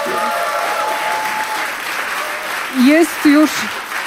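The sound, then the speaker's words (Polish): Concert audience applause for a band taking the stage, an even, steady wash of clapping throughout, with a voice speaking briefly over it near the end. “oklaski dla nich”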